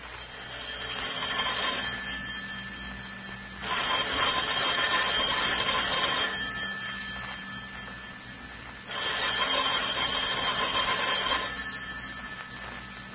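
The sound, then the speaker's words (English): A telephone rings in a home, sounding as repeated bursts of bright bell-like ringing. Two louder stretches alternate with softer ones over several seconds. “That sounded like our phone”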